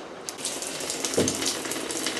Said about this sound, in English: Yeah, you notice the low amount of water in there to conserve water. So here's the half flush.